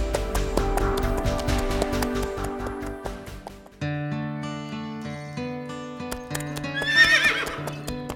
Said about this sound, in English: It was a pony. Fauntleroy had never ridden one, but he quickly learned how. From that day on, he rode his pony every day.